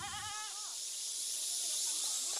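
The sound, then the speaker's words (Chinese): Wavering, nasal bleat of a karst mountain goat, a plant-eating goat of limestone hills. One bleat at the start, then a fainter one near the end, over steady broad hiss. “生活在喀斯特石山上的石山羊，以植物为食，它们吃东西的方式十分节制。”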